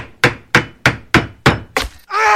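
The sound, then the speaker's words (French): Hammer blows ring out during a house roof repair: six sharp, evenly spaced thwacks on wood, followed at the end by a steady buzzing drone that starts abruptly. “Examinons ce que l'on peut entendre lors d'une réparation d'un toit de maison.”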